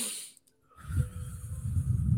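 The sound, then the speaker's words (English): A quick, hissy inhale followed by a long, slow, rumbling exhale, demonstrating a calming breathing technique. The breath out is steady and breathy, with no talk over it. “So if you want to calm yourself down, you want to take actually a faster breath in and a longer breath out. You think of it the other way around.”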